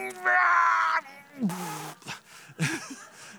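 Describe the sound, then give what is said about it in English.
A voice imitates tomato plants groaning as they strain to squeeze out fruit: a sustained, strained, buzzing moan followed by shorter wavering grunts and groans. “I have never walked by a garden and heard groaning. You hear those little tomato plants over there saying,”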